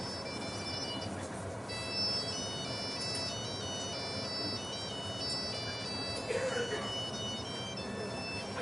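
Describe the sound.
Mobile phone ringtone melody, a faint repeating electronic tune that runs through the whole stretch over dense background noise.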